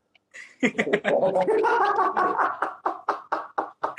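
Someone gargles a drink, a wet, bubbling gurgle that runs steadily for about two seconds, then breaks into several short, choppy gurgles.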